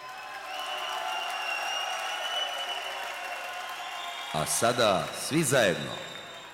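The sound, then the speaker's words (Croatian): A concert audience in Skopje gives faint, steady applause. In the last couple of seconds a voice sounds over the clapping. “Zamolit ću vas sada za jedan spontani aplauz.”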